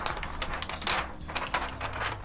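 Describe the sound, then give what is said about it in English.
Protective film torn off roughly in one go gives a loud, dense crackling and ripping, with rapid ticks and crinkles running nearly continuously for about two seconds. “That may have been the worst sounding peel I have ever heard in my entire life. It's almost like it says, please carefully tear off protective film with two hands.”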